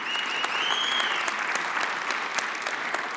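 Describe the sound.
Church audience applauding to welcome guest pastors, a loud, sustained wash of many hands clapping that holds steady from start to finish.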